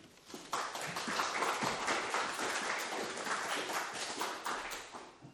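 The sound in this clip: An audience applauds to welcome a lecturer before a talk on Shakespeare. Loud, dense clapping starts after a brief pause and carries on steadily to the end.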